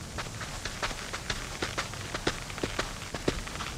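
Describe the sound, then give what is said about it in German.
Soft footsteps sneak through a garden in a radio play: many faint, quick crunching steps in an uneven rhythm over a low, steady background. “Komm, am besten schleichen wir uns durch den Garten.”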